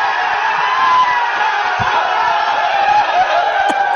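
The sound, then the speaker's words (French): Hockey players cheer a teammate in the locker room: loud, sustained shouting and whooping from many voices that carries on without a break. “Écoutez l'accueil qu'il y a eu dans le vestiaire.”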